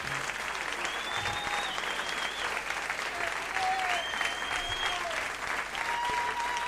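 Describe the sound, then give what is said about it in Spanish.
A live music crowd applauds a guitarist, a loud, dense and sustained roar of clapping with voices mixed in, holding steady throughout. “aplauso grande para el Pepe, maestro.”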